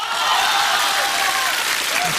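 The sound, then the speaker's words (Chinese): Audience applause at a crosstalk comedy performance: a dense, even roar of many hands clapping, loud and unbroken from start to finish. “虽然有掌声还是不行。”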